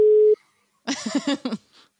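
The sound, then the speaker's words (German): A telephone call goes unanswered: a single steady pure tone sounds for about a third of a second, then after a pause comes a short burst of voice-like sound and a faint final blip. “euer Joker geht nicht ans Telefon.”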